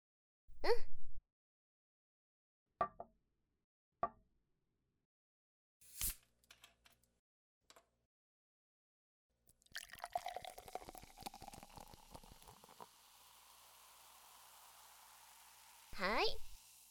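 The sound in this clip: Carbonated juice is poured into glasses: a few short knocks and taps, then several seconds of crackling, fizzing pour that settles into a faint lingering hiss of bubbles.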